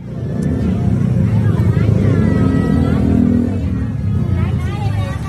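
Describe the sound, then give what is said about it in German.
Crowd chatter and vehicle traffic fill a night market in Bangkok's Chinatown, a dense, steady din of engines and motorbikes with voices talking throughout. “Das, was ihr da gerade hört, das ist der Night Market in Chinatown.”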